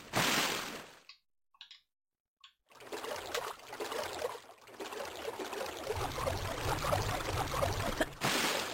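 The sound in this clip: Water flowing in a Tomb Raider video game, a steady rushing trickle that cuts out briefly near the start, then returns and runs continuously at an even, fairly soft level.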